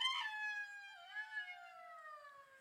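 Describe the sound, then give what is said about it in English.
A jackal call: one long, thin, high-pitched wailing howl, rich in harmonics, sliding slowly downward in pitch while holding steady and fairly faint with no other sounds. “I looked up jackals and I think that he's been hanging around some jackals and they sound like this.”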